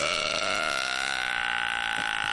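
One long, loud burp, a drawn-out belch held on a steady, buzzing low tone for more than two seconds, forceful and unbroken.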